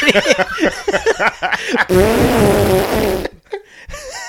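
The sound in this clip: A loud, comic fart sound. Sputtering bursts lead into a sustained, rasping blast lasting over a second, followed by a couple of brief, quieter pops.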